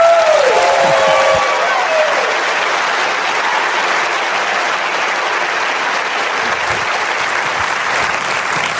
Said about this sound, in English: So if you would put your hands together, make a little bit of noise, let her know how grateful you are for the one and only Jen McMillan.